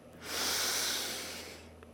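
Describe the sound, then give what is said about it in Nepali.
A single deep breath drawn in during a guided relaxation breathing exercise: a long, airy hiss that swells steadily, holds, then slowly tapers away, with no talking over it. “श्वास लियौँ सबै पीडा चिन्ता श्वाससँगै बाहिर फ्याँकौँ श्वास लिउँ”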